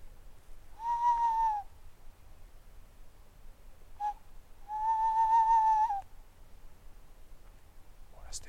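Barn owls call at night: two drawn-out tonal cries, each lasting about a second, separated by a brief faint note, with another short call at the end over a quiet background.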